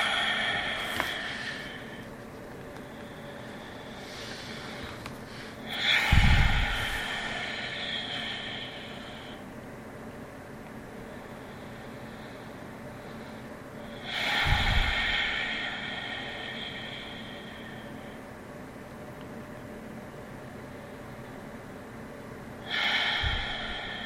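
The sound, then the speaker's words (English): Long, slow, deep breaths during a guided meditation. Three airy breaths are spaced evenly about eight seconds apart over a faint steady hiss. “we're going to begin by taking some long, slow, deep breaths.”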